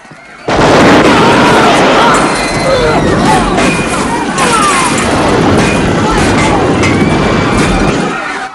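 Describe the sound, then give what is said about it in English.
Gunfire in a film shootout at a skating rink, where skaters tumble and a man falls through the safety fence onto the rink floor; loud, dense bursts and crashes run almost continuously in a harsh, sustained din. “Kersey shoots another of Fake White's men, then another, who falls through the safety fence and lands on the rink floor.”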